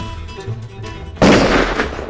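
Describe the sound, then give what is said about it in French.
A single loud rifle shot fired in the dark: a sharp crack with a noisy, slowly decaying tail. It comes after a quiet stretch of low background noise. “Oh, t'as raison, passe-moi le fusil. Tu vas réussir à tirer dans le noir? Fais-moi confiance.”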